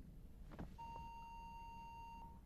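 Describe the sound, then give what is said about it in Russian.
An answering machine gives one long, steady, high electronic beep, held for well over a second. It sounds faint and stands alone with no talk. “Пожалуйста, оставьте сообщение после пип.”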